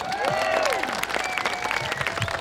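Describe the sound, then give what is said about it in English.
Crowd applause at a march: scattered hand clapping at moderate level, mixed with general crowd noise and sliding vocal tones early on. “We advocate for every human being, everyone, from conception to natural death. And that you should applaud for.”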